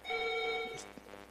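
A telephone rings for an incoming call: one steady, bright electronic ring tone lasting about half a second, then cutting off, followed by a few faint soft knocks.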